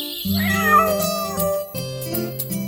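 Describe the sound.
A kitten meows in a few loud, wavering, drawn-out cries, the first sliding and bending in pitch, set against steady sustained tones underneath.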